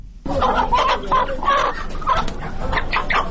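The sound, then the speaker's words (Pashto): Caged chickens cluck at a bazaar stall where a shopkeeper takes them out for sale, a steady stream of many overlapping clucks and squawks, fairly loud and continuous, with no talk over them. “د سده په بازار کې دکاندار د خرڅ لپاره لا پنجرې چرګ راوباسي.”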